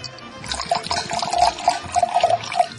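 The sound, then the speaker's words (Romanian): Wine runs through pipes on a street, making a continuous gurgling, splashing flow. Bubbly bursts ride on a steady, fairly loud rush of liquid, and no one speaks. “Vinul curge pe țevi, oameni buni, pe țevi. De parcă ar fi țevi de termoficare.”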